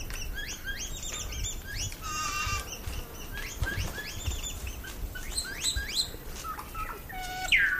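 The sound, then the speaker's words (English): Quiet fluting calls from a male and female saddleback pair, soft whistled contact notes exchanged as part of their pair bond. Many short, varied, clear notes follow one another over a low background rumble. “So this one, they're not talking to the neighbours, they're just talking to each other. Yeah. So male and female saddleback, they typically feed together or within quite close proximity to each other year round.”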